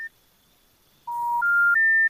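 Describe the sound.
Phone dialing tones on a mobile with a second SIM card, calling a number that is busy: a brief high beep, a pause, then three sustained clean tones stepping upward in pitch, one after another.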